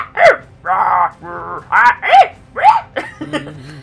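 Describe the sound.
A person's voice imitating a dog barking, giving a loud run of short, harsh barks with a sharp rise and fall in pitch on each one.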